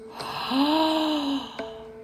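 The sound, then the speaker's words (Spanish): Breathing in and out through the mouth during a guided breathing session, heard as one drawn-out voiced sigh carrying a steady hum-like tone, with soft breath noise before and after. “jalando aire y sacándolo por la boca.”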